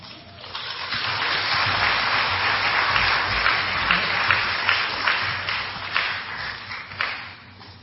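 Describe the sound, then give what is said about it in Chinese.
Sustained audience applause at an event, thanking a woman for her words of encouragement, rising quickly into a full, steady round of clapping that carries on for several seconds. “我们再次掌声谢谢妈妈对我们的勉励。”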